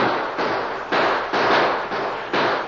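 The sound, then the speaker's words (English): Gunfire crackles through a radio-drama gunfight as bullets rip into a wooden barrier: several harsh, noisy bursts follow one another in quick succession, each roughly half a second long, with no pause between volleys. “And the gunfight continued without any letup, and Soapy's men crawled closer and closer. Their bullets ripped into the wooden barrier, and Barnes was hit.”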